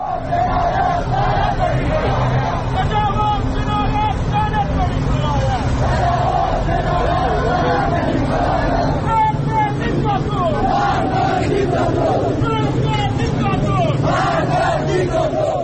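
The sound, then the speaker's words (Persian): A crowd of street protesters in the Iranian city of Iranshahr: a loud, continuous mass of many voices shouting together that stays steady throughout. “این صدای مردم ایران شهر بود.”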